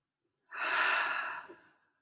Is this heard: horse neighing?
no

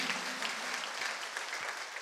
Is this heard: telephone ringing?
no

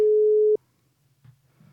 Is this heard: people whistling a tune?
no

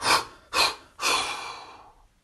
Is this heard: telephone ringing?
no

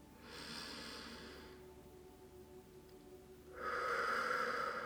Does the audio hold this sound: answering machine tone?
no

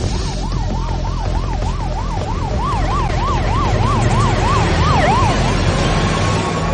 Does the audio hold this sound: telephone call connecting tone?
no

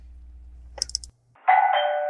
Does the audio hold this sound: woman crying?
no

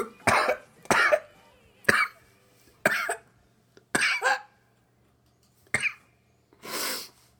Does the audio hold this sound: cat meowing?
no

